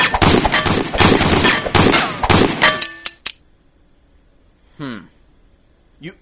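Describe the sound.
Loud, dense gunfire mixed with metallic clangs as bullets are blocked with a shovel, many rapid shots ending in a few sharp hits, followed by brief voices.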